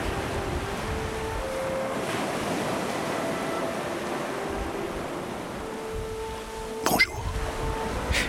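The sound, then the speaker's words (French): Winter sea waves wash in a continuous, steady roar of surf that stays even in loudness, with one brief louder burst near the end. “Cette mer d'hiver fascinante, comme dernier terrain vague. Cette mer jamais étale,”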